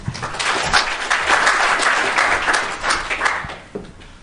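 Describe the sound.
An audience applauds to welcome a speaker to a talk on risk management for public entities. The clapping is dense and steady for about four seconds, then thins out and fades toward the end.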